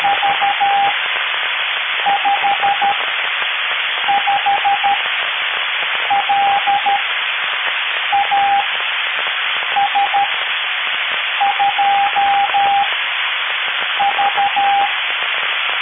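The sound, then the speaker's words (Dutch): A Morse code signal over amateur radio: a steady mid-pitched tone keyed on and off in short groups of dots and dashes, riding over a loud, constant hiss of band noise. “ik hoor hier zelfs een morsensignaal”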